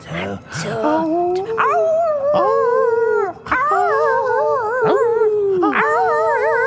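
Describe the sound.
Dogs howling in long, wavering, overlapping howls that rise and fall in pitch, with a few fresh howls starting throughout. The chorus is loud and nearly continuous, with one brief dip near the middle.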